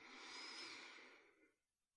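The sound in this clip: A single long, airy breath, slow and steady for over a second before it fades into quiet, with a faint click at the very end.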